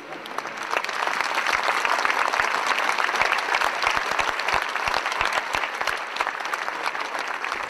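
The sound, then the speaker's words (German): A large crowd in St. Peter's Square in Rome applauds spontaneously after the announcement of the pope's death: sustained, dense clapping that rises quickly and holds steady for several seconds, with no speech. “Spontan klatschen die Menschen Beifall.”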